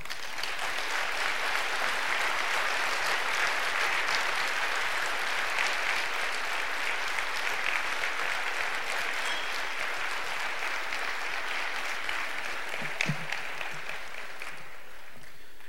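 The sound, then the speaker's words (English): Audience applause welcomes a speaker at an aviation gathering marking the anniversary of the Wright brothers' first powered flight. The clapping is dense and steady for about sixteen seconds and eases slightly at the very end. “Let's welcome Jeff Skiles.”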